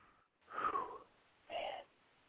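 Heavy, wheezing breaths of someone catching their breath after intense exertion: two loud, rough breath bursts separated by a short pause, with no talking.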